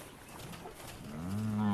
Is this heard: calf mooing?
yes